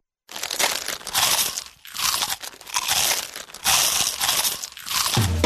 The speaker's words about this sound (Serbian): Njam! Mali hrskavi zalogaj! Vanini!